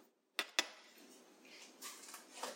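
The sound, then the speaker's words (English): Cutlery clinks as a kitchen knife is fetched during baking: two sharp metallic clicks in quick succession, followed by softer rustling handling noises. “I don't have a knife here to level this off, which is what I should have. Dang it. Hang on. Let me get a knife here.”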